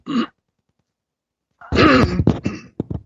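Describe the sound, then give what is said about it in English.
A person clears their throat: a brief rough rasp, a pause, then a longer, harsher clearing that breaks into a few choppy bursts. “I got a catch on my throat.”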